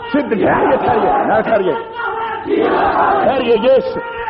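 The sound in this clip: A crowd shouts religious slogans together at an Urdu-language religious address, in two loud bursts of many voices with a short gap between them.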